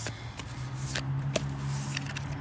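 A deck of affirmation cards being shuffled: soft, papery riffling rustles over a steady low hum, with a slightly sharper tap near the middle.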